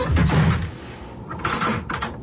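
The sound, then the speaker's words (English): A door is shut and locked as people leave a villa: a dull, noisy shutting sound comes first, followed by a couple of short mechanical clunks. “What about the door?”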